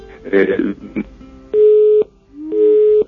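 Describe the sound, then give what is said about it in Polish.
Busy tone on a phone line after a caller's connection to a radio station is cut off: two steady beeps, each about half a second long, after a short stretch of muffled voice and line noise. “No, może panu uda się jeszcze raz z nami połączyć. Niestety połączenie zostało przerwane.”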